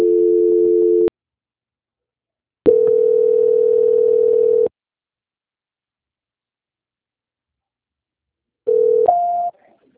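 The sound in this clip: Steady telephone line tones sound during a call transfer: three separate bursts of flat, buzzing tone separated by silence, the last one stepping up to a higher pitch before cutting off.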